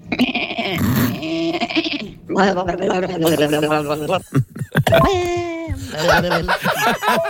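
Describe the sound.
A person imitates a goat during a game of animal karaoke, giving several nasal, wavering bleats in a row with a shaky, vibrato-like quality, loud and separated by short pauses.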